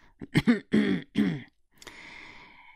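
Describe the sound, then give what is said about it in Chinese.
Throat clearing and coughing from a person in an office: a few gruff, voiced bursts in quick succession, then a softer, breathy rasp trailing off, with no speech. “万主任咳嗽了两声”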